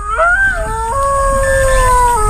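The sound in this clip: A robot wolf deterrent with metal legs, a shaggy mane, large fangs and red LED eyes howls through its speaker: a loud, synthetic tonal wail whose pitch jumps in steps and wavers, alone and continuous.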